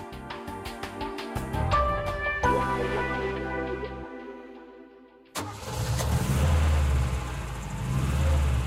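Engine of a driverless car starting and running, a low steady rumble that takes over after a stretch of tonal sounds and a brief dip in loudness, with no voices.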